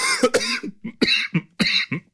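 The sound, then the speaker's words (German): Harsh coughing after a man chokes on something while speaking: a run of sharp coughs and raspy throat clearing in several bursts, loud and alone. “Entschuldigung, ich habe mich total verschluckt.”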